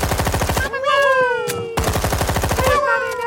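Gatling machine gun firing in two bursts of rapid, evenly spaced shots. A loud, wavering tonal cry fills the gap between the bursts and continues into the second one.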